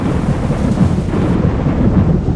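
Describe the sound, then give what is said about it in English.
A thunderstorm rumbles at night as a steady, loud, dense roar of low thunder and rain noise that runs unbroken through the whole clip. “Biff looked outside. There was a storm.”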